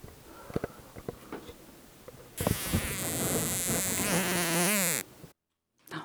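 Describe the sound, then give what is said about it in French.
Housefly buzzing as it struggles, caught by a tiny spider in a bedroom: a loud, continuous buzz with wavering pitch and a harmonic edge, preceded by faint scattered ticks, then cut off abruptly. “Ok, alors c'est une mouche dans ma chambre qui est en train de se faire attraper par une mini-araignée minuscule. Et tranquillement, elle l'emballe malgré tout. Alors la mouche se débat.”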